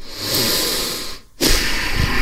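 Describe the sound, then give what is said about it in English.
Breathing into a microphone: a steady, breathy hiss runs for about a second, drops out briefly, then returns for a second stretch with no talk over it. “What is that breath?”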